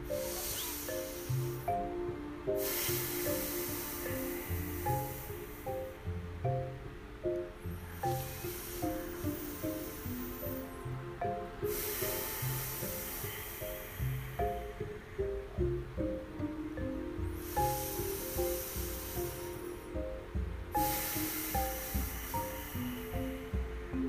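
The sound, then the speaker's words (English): Deep breaths in and out through the nose during a guided breathing exercise: slow, soft hissing rushes rise and fade in a calm, unhurried rhythm over quiet, steady background music. “So that was our 3 deep breaths in and 3 deep breaths out, inhale and exhale and out through our nose.”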